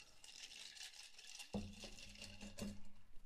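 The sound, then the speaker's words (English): A cocktail of light and heavily peated scotch is stirred, giving faint, rhythmic scraping and light clinking with no voices. “I've included light peated scotch and heavily peated scotch. So we're going to go ahead and keep stirring this up.”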